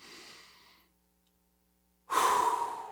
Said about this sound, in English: just take a deep, slow breath with me